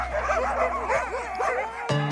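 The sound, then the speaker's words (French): Sled dogs unloaded for a polar expedition yip and whimper, making many overlapping high, wavering whines and cries. A few sharper barks break in near the end. “Les chiens furent débarqués. On construisit pour eux non des igloos, mais des dogloos, avec des blocs de glace et de neige.”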